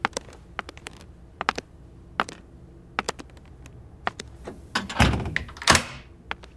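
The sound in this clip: A door is shut and locked: a run of sharp clicks and taps, then a heavier thud with a brief rattle and a second clunk near the end, all fairly quiet and with no voices.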